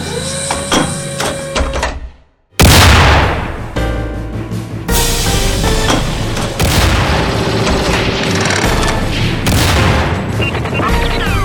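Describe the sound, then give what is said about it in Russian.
Tank cannon fire in a battle against a column of German tanks: a dense, loud roar of gunfire and rumbling. After a brief near-silent gap, a heavy boom breaks in, followed by sustained loud clatter and bursts. “Первым же снарядом экипаж Колобанова подбил головной немецкий танк.”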